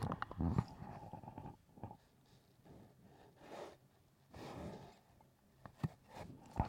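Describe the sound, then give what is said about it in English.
A dog nosing a microphone makes faint snuffles and soft rubbing bumps, scattered irregularly across quiet stretches, with a few sharper knocks near the start and end. “did you hear that? That was my dog.”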